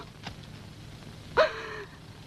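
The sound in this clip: A dog whines once, a single brief, faint whimper lasting about half a second, alone with no talk over it.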